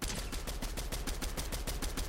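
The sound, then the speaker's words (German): Continuous automatic gunfire from a player's weapon in a video game, a dense, unbroken stream of rapid shots filling the whole clip at steady loudness with no talk. “Bei mir schießt meine Waffe einfach durchgehend.”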